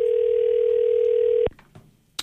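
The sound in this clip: An outgoing call's ringback tone plays as one loud, steady, even-pitched buzz for about a second and a half, then cuts off abruptly, leaving faint clicks and a brief sharp tap.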